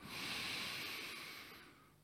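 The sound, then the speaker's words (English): A deep inhalation through the nose, drawn down toward the belly: one steady, faint, breathy rush lasting about two seconds, with no talk. “as you breathe in, just elongate that inhalation and aim it at your belly like this.”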